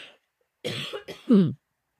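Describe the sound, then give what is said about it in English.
Throat clearing from a tickle in the throat: a few short, rough bursts, the last a stronger voiced rasp, heard alone with silence around them. “Excuse me, I got a little tickle in my throat. It's still there.”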